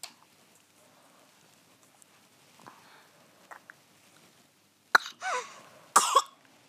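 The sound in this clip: Two dry coughs from a person asked to cough during a medical examination for suspected bronchiolitis. Each is a sharp, loud burst with a short tail, following several seconds of near silence broken only by faint rustling.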